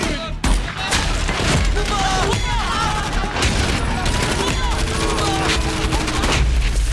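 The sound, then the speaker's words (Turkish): Gunfire in a combat scene with a sniper rifle firing: a sharp blast near the start and another around the middle, set amid dense, continuous battle noise. “Hazır olunca ateş et. Tamam, hazır ol. 9.02, rüzgar 4'te 3. Görüyorum dostum, görüyorum. Hazır olunca ateş et. Ateş ol!”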